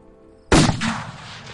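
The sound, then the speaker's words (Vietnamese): A loud explosion from a demon-slaying talisman in a ghost story. One sudden sharp blast rings out, followed by a rough, crackling tail that stays strong for about a second. “Tiếng nổ lớn vang lên ngay nơi tên huyết ma vừa bay lên. Thì ra là đạo bùa sát quỷ của thầy Phong.”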